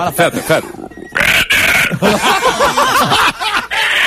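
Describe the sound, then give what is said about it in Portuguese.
Pig grunts inside a radio studio, a run of short, rough snorting grunts packed closely together, with people talking and laughing over them. “Que fedor esse porco, rapaz. Por favor. Onde é que saiu esse bicho? Tira do microfone.”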